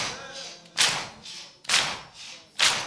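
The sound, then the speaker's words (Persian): Mourners beat their chests in unison at a religious mourning gathering: three heavy, evenly spaced thuds about a second apart, with a faint voice audible between the blows. “این دستا همه بیاد بالا سینه بزنید برای آقاتون”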